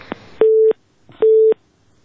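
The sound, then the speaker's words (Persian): A telephone busy tone after a call is disconnected: two steady mid-pitched beeps, each about a third of a second long, separated by a short gap, with a faint click before each. “تماس اینا قطع شد.”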